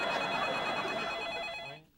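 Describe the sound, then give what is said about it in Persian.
A telephone bell rings in a single quiet, steady electronic trill that cuts off abruptly near the end, leaving silence. “میدونم مامان تلفنه، منم میشنوم.”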